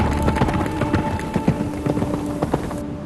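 Hooves of a tired horse clip-clopping, a quick steady run of many sharp knocking beats at moderate loudness throughout.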